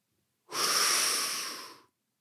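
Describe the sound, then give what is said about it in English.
A deep inhaled breath, drawn in as one long, airy, hissing intake lasting over a second. It starts abruptly, stays loud and breathy, then tapers off gradually before stopping. “And there's only one thing left to do, and that is inhale a hot breath”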